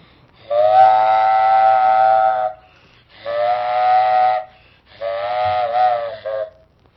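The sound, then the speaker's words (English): A freight train whistle sounding three long, steady chord-like blasts of about two seconds each, separated by short gaps. The last blast is slightly shorter and breaks briefly near its end. Loud and clear, with no talking. “Freight train.”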